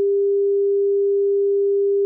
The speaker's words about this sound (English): Here are some complex waves compared to the sine wave at 400 Hz. First, just the sine wave.